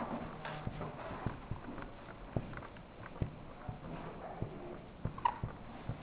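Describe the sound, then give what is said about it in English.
A marker pen that is running out of ink writes on a board in a lecture, giving faint irregular taps and brief scratchy strokes at an uneven pace, with no talk. “I'm running out of marker again.”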